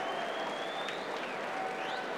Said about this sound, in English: Well, Berrettini, as you may have been able to tell with the crowd cheering, is back out onto court.